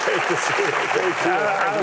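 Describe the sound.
Studio audience applause on a television talk show welcoming back a journalist guest, a dense continuous clatter of hands with a voice talking over it.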